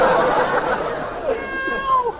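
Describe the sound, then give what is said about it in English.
A black cat meows in a drawn-out, wavering cry in the second half, after a busier stretch of sound at the start. “Well, I gotta get rid of this black cat some way.”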